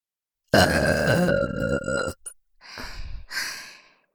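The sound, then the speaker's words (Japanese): A person lets out a long, loud, deep burp with a rough, throaty rumble. A few softer breathy exhalations follow. “ご挨拶ゲップでした。”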